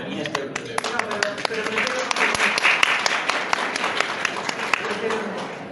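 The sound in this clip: Audience applause after a call for a round of clapping: dense, steady clapping from many hands that runs through the whole clip at an even, fairly loud level, with sharp individual claps standing out.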